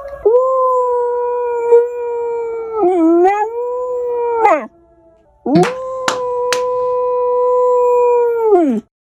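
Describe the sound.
A corgi howls in imitation of a tornado siren: a long, tonal wail that bends up and down, breaks off briefly, then resumes in a second sustained howl, with a few sharp clicks along the way.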